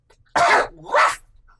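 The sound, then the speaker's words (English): A patient with a bad, lingering illness coughs hard at a doctor's visit, two loud, rough coughs in quick succession with no talk over them. “That's a terrible cough”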